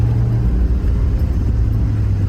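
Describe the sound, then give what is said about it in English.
A 2022 Chevrolet Silverado ZR2 pickup with a 420-horsepower 6.2-liter engine and 10-speed automatic drives through the California desert, giving a steady, loud, low engine rumble with a constant droning hum and no break. “This is me driving the all-new 2022 Chevrolet.”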